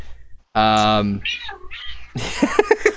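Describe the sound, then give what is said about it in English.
An annoyed cat getting a back rub lets out a loud, drawn-out harmonic meow, then a few softer, shorter cries. People talk over the later part. “the cat is pissed off.”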